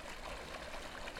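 Water in a stream flows with a soft, steady babbling hiss. It is faint and continuous, with no other sounds over this brief stretch.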